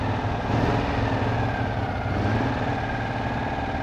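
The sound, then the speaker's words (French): Engine of a Citroën 2CV car running, a steady low mechanical drone with an even, fast putter that holds at a constant pitch and level throughout. “Eh oui, c'est le bruit d'une deux chevaux.”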